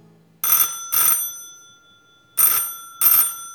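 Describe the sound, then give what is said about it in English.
A telephone rings after a number is dialed: two double rings, four bright, bell-like bursts in all, each pair close together and separated by silence. “Without seeing her, I dialed her number.”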